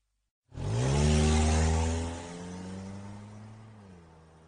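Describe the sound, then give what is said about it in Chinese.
A car engine starts abruptly and revs hard with a strong, buzzing roar, then drops to a lower, steadier hum that slowly fades. “片刻后，车子发动了。”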